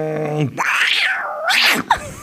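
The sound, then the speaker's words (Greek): A person imitating a cat with two drawn-out meows that rise and then fall in pitch. The first meow is longer and the second shorter, and a brief held vocal tone comes before them. “Δεν μπορώ να κάνω βατράκι. Γάτο θα σου κάνω.”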